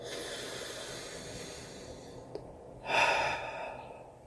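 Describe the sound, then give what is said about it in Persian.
Deep, conscious breathing during a guided mindfulness exercise: one soft, breathy rush of air swells and fades near the end, preceded by a faint, brief hiss, with no voices. “چند نفس عمیق آگاهانه میکشیم دم و بازدم”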